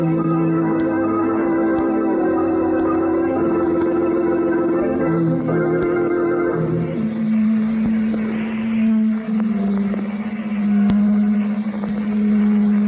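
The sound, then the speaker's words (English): Motor running inside a laboratory, a steady, loud droning hum that continues throughout with no talk, its tone dropping lower partway through. “Do you mind turning off that motor?”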